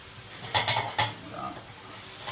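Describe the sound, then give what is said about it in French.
Kale pan-fried in a frying pan: three sharp clinks of a utensil against the pan, over a faint, steady sizzle and light stirring. “Donc là, tu fais poêler ton kale.”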